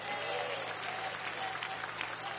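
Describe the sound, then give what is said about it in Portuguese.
Congregation clapping hands in a church service, a steady, dense run of claps that holds at an even level throughout. “venha, camisa azul, bate palmas, dá glória a Deus.”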